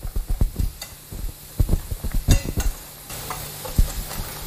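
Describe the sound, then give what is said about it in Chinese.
Infant milk powder mixed with animal milk powder being stirred, a rapid run of many small clinking and scraping strokes in an irregular rhythm, with no voices. “幼儿奶粉和动物奶粉混合后搅拌均匀。”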